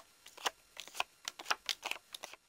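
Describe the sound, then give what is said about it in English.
Playing cards being dealt from a deck, a faint run of many quick, crisp snaps and flicks at irregular intervals, with no voices. “Deal the card”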